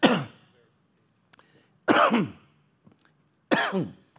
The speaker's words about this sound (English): Still got that cough. Anybody got that cough? Just seems to nag.